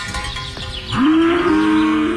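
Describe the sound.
A cow moos in one long, loud, steady low call that lasts over a second and holds to the end, after a stretch of quieter low rustling and shuffling.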